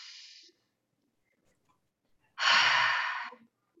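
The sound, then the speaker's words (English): A deep breath during a guided group breathing exercise. A short, soft breath is followed by near silence, then a longer and much louder rushing breath that fades at its end. “Breathe in.”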